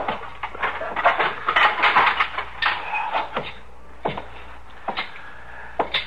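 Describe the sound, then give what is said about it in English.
Firewood is set down beside a stove in many wooden knocks and clunks. The hollow thuds come in a dense cluster at first, then thin out into sparser single knocks. “You can just put the wood down by the stove.”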